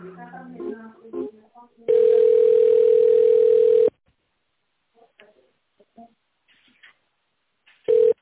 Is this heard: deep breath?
no

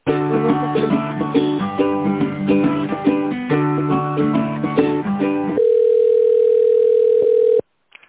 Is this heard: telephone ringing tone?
yes

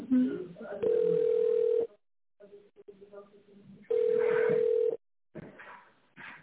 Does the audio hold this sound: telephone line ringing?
yes

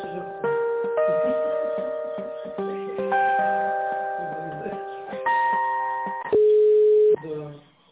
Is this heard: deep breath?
no

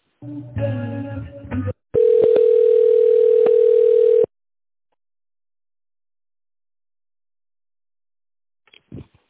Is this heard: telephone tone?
yes

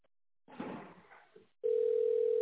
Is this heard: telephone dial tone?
yes

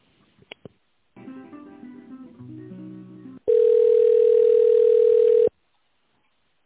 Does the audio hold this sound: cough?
no

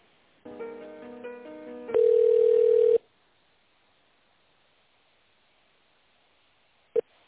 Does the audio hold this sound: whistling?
no

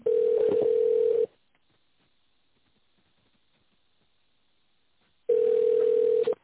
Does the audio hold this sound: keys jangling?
no

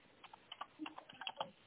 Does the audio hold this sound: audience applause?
no

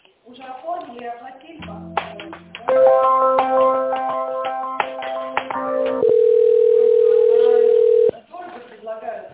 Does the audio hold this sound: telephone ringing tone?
yes

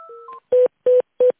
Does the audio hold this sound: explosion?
no

